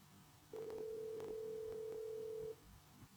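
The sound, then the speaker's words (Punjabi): A telephone line tone sounds after a call disconnects: one flat, steady beep held for about two seconds, faint and alone over low background hiss. “ਹੁਣ ਤੁਹਾਡੀ ਆਵਾਜ਼ ਆਈ ਸੀ, ਫਿਰ disconnect ਹੋ ਗਿਆ phone ਤੁਹਾਡਾ।”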